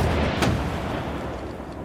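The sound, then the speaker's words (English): Cannon fire from castle walls over London: a single sharp blast rises out of a dense, rumbling wash of noise, which then fades slowly. “The constable gives a signal, and the cannon that line the walls boom out over London.”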